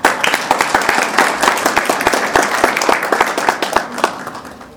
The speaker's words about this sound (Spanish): Lo recibimos con fuertes aplausos.